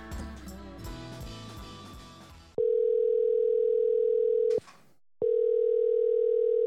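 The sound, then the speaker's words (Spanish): Placing a call to a guest brings a telephone dial tone, a steady pure hum that starts after a stretch of music, breaks off briefly with a click and a gap, then resumes. “Vamos a llamar al señor Carlos Rivera.”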